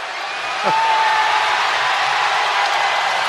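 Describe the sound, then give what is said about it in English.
An arena crowd at a 2004 San Jose Sharks versus St. Louis Blues hockey game reacts as a player enters the penalty box. The broad murmur swells just after the start and holds as a steady, dense roar. “Crowd responding to him stepping into the penalty box”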